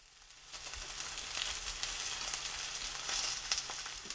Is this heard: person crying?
no